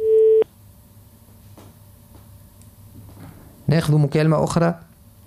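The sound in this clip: A telephone line tone sounds while a listener's call is being connected: one short, loud, steady beep on its own, then quiet line hiss with a few faint ticks before a voice comes on.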